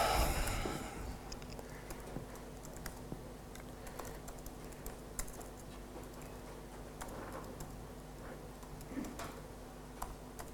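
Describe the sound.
Typing on a computer keyboard, faint and steady: many light, irregular key clicks tapping along for about ten seconds without any voices.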